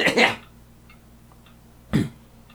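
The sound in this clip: Throat clearing: two short, rough, gravelly bursts about two seconds apart, the first longer and fuller, separated by near quiet.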